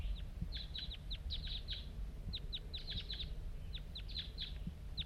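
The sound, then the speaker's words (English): A lone wild bird calling nearby: many short, high-pitched chirps in quick irregular bursts, repeating throughout over a low, steady rumbling background. “Here it comes. One lone bird. And it's real nearby right now.”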